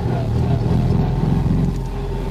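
Car engine revving with the accelerator pressed all the way to the floor, giving a loud, steady, low droning roar that eases slightly near the end.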